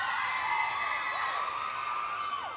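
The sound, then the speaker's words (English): Girls screaming in a crowd at a live show, a sustained overlapping wash of high-pitched shrieks and whoops that stays loud and continuous throughout. “some girls screaming. There's some people patiently waiting.”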